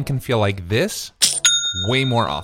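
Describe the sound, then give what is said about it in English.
A short, bright notification chime marks a sale on an online store: a single ringing ding that sustains briefly between stretches of talk. “That's the sound of a sale being made on your new Shopify store.”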